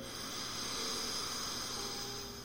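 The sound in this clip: A slow inhalation through the left nostril during an alternate-nostril breathing exercise, heard as a faint, airy hiss that swells gently and fades away.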